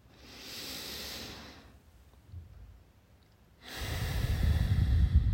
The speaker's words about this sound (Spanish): Inhala profundo y exhala con la nariz.